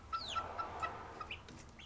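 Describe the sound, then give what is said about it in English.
Young chickens about six and a half weeks old cluck for the first time: a few short, faint clucks and chirps in a loose rhythm, with no voices. “our chickens are starting to cluck for the first time.”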